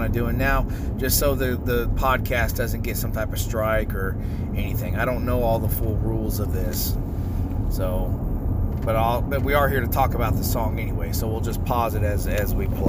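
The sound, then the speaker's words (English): Steady low engine and road rumble fills a car driving home and runs unbroken beneath a person who talks throughout. “So sorry for the background noise. I'm driving home and I wanted to share this.”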